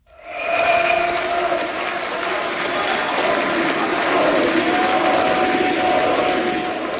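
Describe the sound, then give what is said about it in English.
A crowd of far-right AfD supporters celebrates a landslide state election victory in Saxony-Anhalt, former East Germany, with loud, unbroken cheering and applause that swells at the start and then holds a steady roar to the end. “That's the sound of supporters of the far-right AfD celebrating a landslide election victory in the former East German state of Saxony-Anhalt.”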